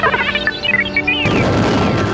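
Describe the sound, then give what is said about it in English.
Starfighter laser fire over a lunar plain: warbling, zinging electronic tones give way to a dense, roaring burst of noise, loud and without voices. “Climbing at the last second, he rose up over the broad lunar plain and sent two bursts of laser fire into the belly of a squint.”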